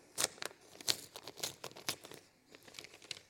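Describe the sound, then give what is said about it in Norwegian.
A paper envelope is torn open, producing a series of faint, sharp crinkling and tearing bursts in an uneven rhythm. “Nå har vi åpnet konvolutt nummer tre.”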